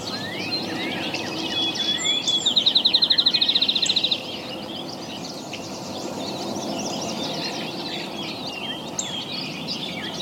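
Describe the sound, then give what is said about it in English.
Vesper sparrow song: a few slurred introductory whistles lead into a fast, high, buzzy trill, delivered once as a single short phrase over steady background noise. “Vespa sparrow.”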